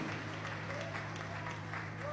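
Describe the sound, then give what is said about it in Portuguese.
Steady applause from a church audience clapping for Jesus during a worship service, a fairly faint, even patter that continues throughout with a low hum beneath it. “Palmas para Jesus.”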